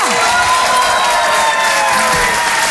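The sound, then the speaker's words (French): Loud ovation from an audience welcoming a performer: dense, sustained applause with cheering and whoops that holds at full strength throughout. “Je vous demande de l'encourager très chaleureusement, de faire une ovation, s'il vous plaît, à Karine Dubois.”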